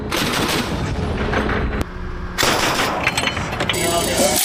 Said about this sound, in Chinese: 这是上级组织的一次实弹射击考核